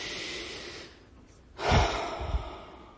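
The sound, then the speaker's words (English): A deep breath during a guided relaxation exercise: a soft, airy breath, a brief quiet gap, then a louder, breathy rush of air with a low rumble, heard alone. “So let's take another deep breath and practice a bit right now.”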